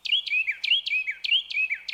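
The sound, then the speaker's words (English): A Carolina wren sings in a wildlife-friendly garden: loud, high, ringing notes repeated in rapid, rolling phrases, each a quick downward slur, with no other sound behind them. “A wildlife-friendly garden offers habitat to many species, like this Carolina wren,”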